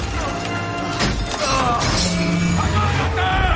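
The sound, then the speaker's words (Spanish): Heavy blows strike the frame that holds the cable pulleys: a few sharp, crashing impacts that stand out against a dense, loud, continuous wash of sound. “Arriba Dwalin golpea el armazón donde están las poleas que sujetan el cable.”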